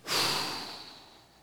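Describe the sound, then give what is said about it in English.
A person takes one deep breath and lets it out in an airy, breathy rush that peaks quickly and then fades away gradually over about a second, with no speech. “would you just take a big breath in with me? Let's inhale and then exhale.”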